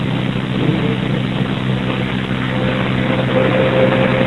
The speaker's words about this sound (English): It's a garbage truck.